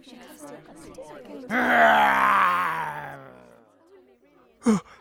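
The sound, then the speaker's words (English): A dragon groans behind a castle wall: one loud, voiced, theatrical moan that swells and then slowly sinks in pitch as it fades. Low murmuring comes before it, and a short sharp burst follows it. “What's that noise? I can see something behind the wall. Look! It's a dragon!”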